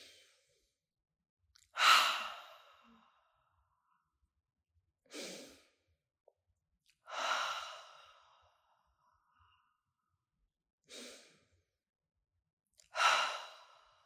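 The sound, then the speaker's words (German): Slow, deep breathing in and out during a calming exercise with eyes closed: five separate breathy, sighing breaths, each a short swell of air followed by several seconds of silence. “Und du hast jetzt deine Augen geschlossen und atmest tief ein und aus und kommst erst einmal hier an. Atme tief ein und aus.”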